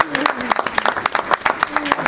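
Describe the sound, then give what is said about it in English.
A round of applause congratulating a preschool program on its compliance review: scattered, sharp claps from a small group in an uneven rhythm, with people talking over them. “That's worth a round of yes. applause.”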